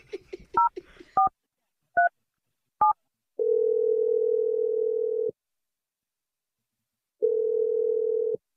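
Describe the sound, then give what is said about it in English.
Touch-tone dialing sounds as a phone number is entered: a quick run of short, bright dual-tone beeps, some clustered and some spaced apart. Two long, steady ringing tones follow, separated by a silent gap. “Let's dial Melanie's number. Let's see if she picks up.”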